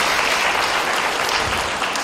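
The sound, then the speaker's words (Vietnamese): Audience applause for a child who answered during a monk's talk to children, a dense, steady patter of many clapping hands that stays even and fairly loud throughout, with no voices over it. “Chúng ta xin cảm ơn bạn Cúc và cho một tràng pháo tay.”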